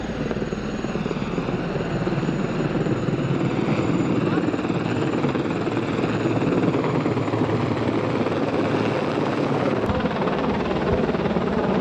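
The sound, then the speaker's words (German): A helicopter arrives over a street demonstration on an industrial road, where police face stone throwers and fireworks are going off. Its steady, loud rotor roar fills the whole clip without a break. “Jetzt kommt der Hubschrauber.”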